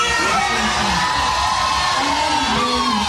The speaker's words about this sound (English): The crowd is just almost out of control.